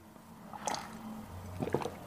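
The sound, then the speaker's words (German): Faint wet mouth and liquid sounds come as someone takes a small sip from a bottle: a few soft squishy gulps and swallows, quiet and without talk. “Moment, ich muss mal einen kleinen Schluck hier aus der Pulle nehmen.”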